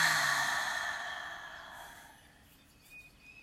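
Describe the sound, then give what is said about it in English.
A long, deep exhale during a guided breathing exercise, loud at first and fading steadily to near silence over about three seconds. “And let's take a nice deep breath in, first one of the day for some of us. And release it.”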